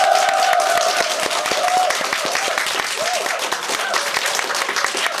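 Applause from a studio audience of about thirty people at an open-studio event, a steady, dense patter of many hands clapping that stays loud and even throughout.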